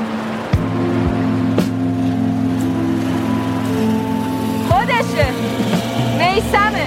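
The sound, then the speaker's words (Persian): A motorboat approaching across water, its engine giving a steady droning hum with layered tonal harmonics that holds at an even, fairly loud level throughout. “قایق نزدیکتر میشه.”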